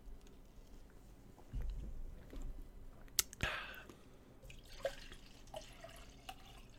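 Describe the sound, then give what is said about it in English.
Water poured to refill a glass: faint trickling and dripping with a couple of sharp clinks near the middle, all very quiet. “Just refilling the water”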